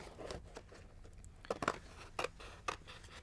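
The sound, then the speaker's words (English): Scissors cut shapes out of cardboard, a few faint crisp snips and crunching slices scattered among soft rustling. “it's a simple case then of cutting out the shapes from the cardboard. Try and cut carefully to your lines.”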